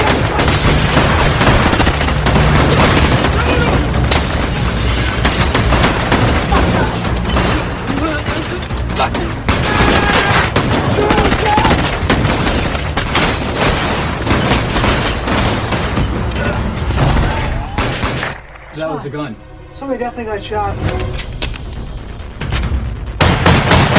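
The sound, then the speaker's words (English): Gunfire in a film scene from 21 Jump Street: a loud, dense barrage of rapid gunshots and heavy booms that runs almost without pause, briefly thinning near the end, with shouting voices under the shots. “That was a gun. Somebody definitely got shot.”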